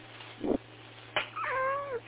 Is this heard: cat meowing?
yes